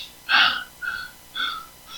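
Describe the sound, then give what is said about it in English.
Sharp inhaled breaths taken during a sermon: three quick gasping intakes about half a second apart, the first the loudest, then a fourth, fainter one at the end. “Your very breath, every time you take in breaths”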